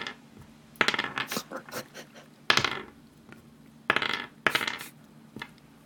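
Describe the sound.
Dice clatter as they are rolled for damage in a tabletop roleplaying game. Several sharp rattling bursts with short gaps between them stand alone over a quiet background.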